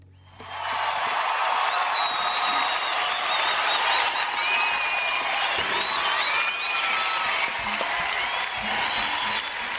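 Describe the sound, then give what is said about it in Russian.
Long, sustained audience applause for a band at a live apartment-style concert show, breaking in abruptly after a brief quiet moment and holding at a steady, dense level throughout, with a few high whistles and whoops rising above the clapping. “долгие продолжительные аплодисменты”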